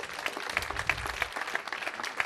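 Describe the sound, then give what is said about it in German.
Audience applause for a volunteer jury at an evening awards event: many hands clapping in a fairly quiet, even patter of quick claps that continues throughout. “Also nochmal trotzdem einen herzlichen Applaus von allen für die ehrenamtliche Jury, die das möglich gemacht hat.”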